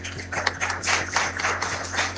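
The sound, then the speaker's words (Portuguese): Worshippers clap for visitors at a church service, many uneven hand claps with some sharper strikes, over a low steady hum. “Nossos visitantes, uma salva de palmas a eles.”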